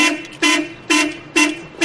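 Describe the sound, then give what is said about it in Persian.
Car horn honking in short repeated blasts, a bright, loud tonal blare sounding several times in an even rhythm with brief gaps between, heard on its own without talk. “بیا یه چند تا بوق بزن براش. بوق بزن عروس مگه داریم میاریم.”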